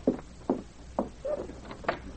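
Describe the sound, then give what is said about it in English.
Knocking at the door of a room: a few faint, evenly spaced knocks that are short and dull, with a quieter sound between the last two. “And then there was a knock at the door of the room.”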